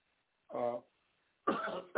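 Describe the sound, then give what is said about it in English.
Coughing and throat clearing from someone who swallowed wrongly: a few short, harsh, voiced bursts with brief pauses between them, heard alone. “Excuse me, I swallowed wrongly, and please excuse me.”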